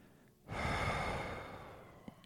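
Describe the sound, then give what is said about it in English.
A single forceful breath exhaled through the mouth during a morning meditation breathing exercise: a sudden, soft rush of air that tails off slowly over about two seconds. “and then forcefully exhale through the mouth. Now I'll do it along with you, and we'll do 5 to 8 breaths of this. Let's breathe everything out right now.”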